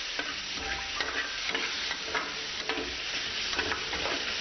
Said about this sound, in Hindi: इसको अच्छे से भून लें, अच्छे से ब्राउन कर लेंगे तो मटन की स्मेल भी निकल जाएगी और पकने में जल्दी आसानी होगी।